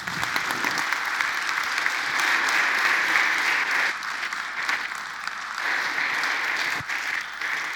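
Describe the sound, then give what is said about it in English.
An audience applauds to welcome a guest on stage: steady, dense clapping for the whole stretch, easing slightly midway before swelling again. “But Amber, would you please come and join me? And would you, as Grace Point, give her a really warm welcome?”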